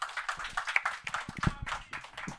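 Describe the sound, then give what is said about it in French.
An audience claps for a performer at a live mind-reading show, a short, uneven patter of hand claps with a few louder smacks, brief and moderately loud, with a voice briefly mixed in. “On l'applaudit.”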